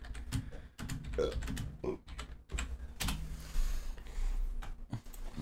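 Keys clatter on a computer keyboard as someone types a Google search for 20 to the power of 20, with many quick, light keystrokes in bursts separated by brief pauses.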